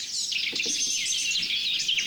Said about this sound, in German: Grasmücke mit Blaumeis im Hintergrund und natürlich Amsel.